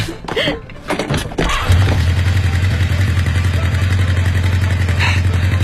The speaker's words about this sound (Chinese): 快去看看你的摩托车吧。 哦，对对对，我发动一下试试。